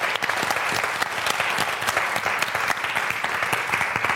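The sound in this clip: Warm audience applause welcomes a panel at a science festival theatre in Oxfordshire, a dense, even rush of clapping that holds steady for about four seconds.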